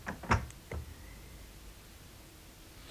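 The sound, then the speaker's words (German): A window and a ventilation flap being closed: two soft, dull clunks close together near the start, followed by a faint steady hiss. “Er schließt das Fenster und die Lüftungsklappe.”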